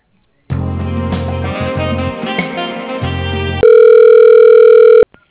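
Telephone tones play while an automated phone system transfers a call: a few seconds of steady, harmonic ringing tones, then a louder, flat continuous tone that cuts off abruptly, with no voices.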